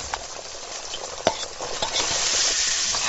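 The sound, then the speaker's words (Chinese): Dried chillies and ginger slices fry in hot oil over a chestnut-shell fire, producing a continuous sizzle with scattered stirring scrapes and light clacks that grows slightly louder toward the end, with no voices. “板栗壳烧旺，干辣椒炸香，再加入嫩姜片，激出雁来蕈的奇鲜”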